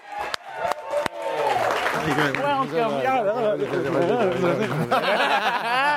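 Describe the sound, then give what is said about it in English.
An audience applauds and cheers a comedian's introduction at a comedy show. A few sharp claps open into sustained, loud applause with voices whooping over it throughout. “Ladies and gentlemen, put your hands together violently for Jonah Ray.”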